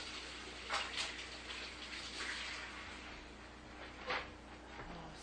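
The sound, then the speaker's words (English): Running tap water flows as hands are washed after preparing food by hand, a faint, steady rushing hiss throughout with a few brief louder splashes, and no voices. “Let's put the spoon. Wash my hand.”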